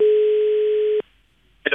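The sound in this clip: A telephone ringing tone plays as a call is placed: one steady, mid-pitched tone lasting about a second, then silence, with a voice briefly starting at the very end.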